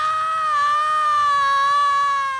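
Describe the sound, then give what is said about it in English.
A woman's high, piercing scream comes from a lobby. It is loud and held steady in pitch for about two and a half seconds, with no talk over it. “Just then, another female scream comes from the lobby.”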